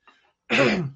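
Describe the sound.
A throat being cleared after flour and crumbs irritated it: a brief soft rasp, then one loud, harsh throat clear that sounds like a cough.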